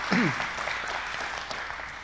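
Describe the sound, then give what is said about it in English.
Audience applause for a young woman after an interview at a community gathering: a soft, steady wash of many hands clapping, with a brief voice rising out of it near the start. “everybody want to maybe give her a hand clap for doing an interview.”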